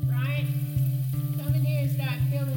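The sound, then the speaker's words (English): Onions sauté in a skillet with a steady, soft sizzle and gentle pulsing crackle under a sustained tonal sound. “What am I hearing in the background? Something's in the skillet. What is it? That's Mom sautéing onions for a dish.”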